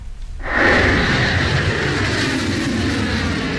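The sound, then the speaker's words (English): A missile launches into the sky: after a brief quiet moment, a sudden loud roar bursts in and holds as a sustained, broad rushing blast until the end. “A missile shoots into the sky, leaving a long, white tail behind.”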